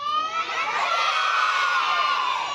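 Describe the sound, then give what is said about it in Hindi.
A group of children yells a programme's name together as loudly as possible in a loudness contest, producing one sustained, loud, high-pitched collective shout. “एक मुकाबला करवाते हैं ठीक है देखते हैं किसकी ज़्यादा तेज़ आवाज़ आती है। सब बच्चे प्रोग्राम का नाम बताएंगे जल्दी।”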